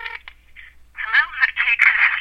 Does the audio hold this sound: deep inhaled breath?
no